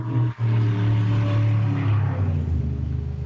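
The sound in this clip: Cars drag racing nearby give a loud, deep engine roar. A sustained rumble with strong droning harmonics fills the whole stretch, and nobody speaks.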